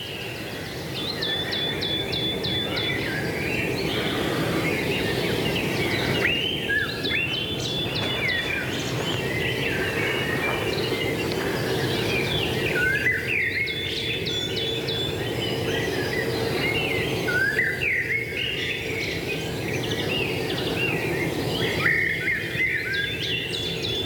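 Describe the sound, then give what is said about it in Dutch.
Birdsong fills a deciduous woodland where blackbirds, thrushes and a coal tit are singing. Bright chirping phrases repeat at intervals over a steady, continuous background of calls, with no talking. “Je loopt het loofbos in en je hebt meteen merels, hè? Je hebt meteen lijsters. Ja. Zwarte mees.”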